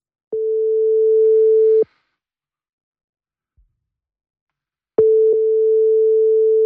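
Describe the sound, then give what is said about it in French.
WhatsApp call ringing tone: a steady mid-pitched tone sounds for about a second and a half, then there is a long silence broken only by a faint thump, and the same tone starts again and continues. “Allez, c'est parti, on se connecte avec WhatsApp.”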